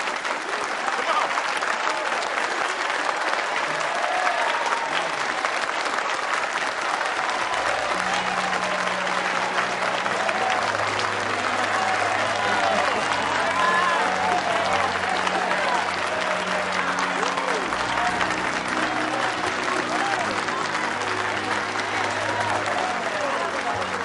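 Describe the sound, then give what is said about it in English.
Sustained clapping from a church audience honoring a woman called to the front, dense and steady for the full length, with low organ-like tones entering partway and voices speaking over it. “Who's clapping for? We clapping for you! Come on down, Sister Clark.”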